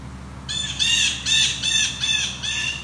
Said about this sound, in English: Blue jays? That's their typical jay call. There's a fair number of them here.